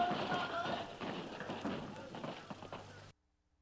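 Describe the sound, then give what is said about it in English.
Hurried running footsteps of soldiers during a military operation, a steady scuffling patter with sharp cracks scattered through it and voices talking over the top, ending abruptly. “You hear the shooting still going on. Unbelievable. As he's talking and running.”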